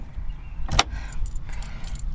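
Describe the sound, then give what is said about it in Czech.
A steering wheel lock is fitted to a parked car, with one sharp metallic clank and jangle near the middle over a low rumble, followed by softer rattling. “Tak, zamkneme volant.”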